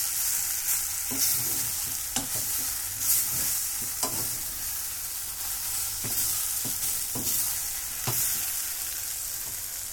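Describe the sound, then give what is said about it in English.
Vegetables sizzle and fry in a pan with garlic and butter. A steady hiss runs throughout, broken by several sharp knocks and scrapes as the pan is tossed and stirred. “So I need to toss this veg some more anyway. I think I said at the end I was going to finish it off with some butter.”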